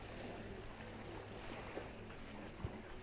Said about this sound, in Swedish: Ni hör säkert vågorna, starka ljud här i bakgrunden.